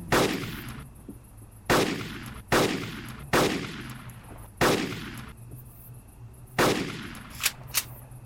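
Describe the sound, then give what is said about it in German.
Sniper rifle shots in a video game: a series of heavy, booming shots at irregular intervals, each with a long decaying tail, followed by two short, sharp clicks at the end. “Ja, aber diesmal sind es viel mehr. Die hole ich mir mit der Sniper.”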